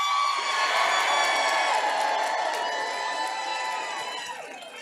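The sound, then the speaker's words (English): A crowd at a political rally cheers and whoops in a loud, sustained roar that tapers off toward the end. “Welcome to a real political rally.”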